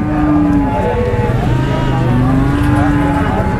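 Cattle lowing at a weekly livestock market in Xinjiang, where farmers drive sheep and cows onto the square: a few drawn-out, low moos rise over a loud, dense and constant crowd din.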